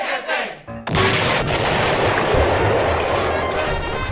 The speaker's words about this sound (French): Je vais faire exploser un vrai bateau. Je m'en fiche si c'est dangereux.